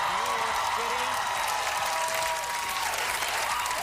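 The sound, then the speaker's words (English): A New York City studio audience at a live comedy show applauds the newly elected mayor with loud, sustained clapping. Crowd voices and cheering run beneath it throughout. “That's organic applause.”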